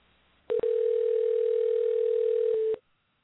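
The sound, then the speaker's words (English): A telephone dial tone sounds while a call is being redialed: a single steady, even tone that starts with a brief break, holds for about two seconds, then cuts off cleanly into silence. “Let me dial back up. Here we go. Stand by.”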